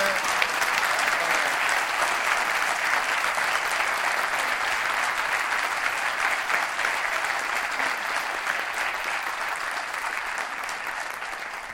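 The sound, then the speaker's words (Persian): Steady applause from a group at a birthday gathering, a dense, even patter of clapping hands that holds throughout and eases off slightly toward the end. “به افتخار من دست بزنید.”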